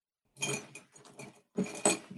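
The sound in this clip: Pens clatter and rattle as a high school math teacher grabs them at home while preparing lecture notes, giving a few bright, jangling bursts separated by quieter rustles, with a stronger clatter near the end and no voices.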